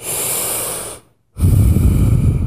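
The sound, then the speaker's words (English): Two long, loud, deep breaths, each a sustained breathy rush of air, separated by a brief silent pause. The second breath sounds fuller and heavier in the low range. “Deep breaths.”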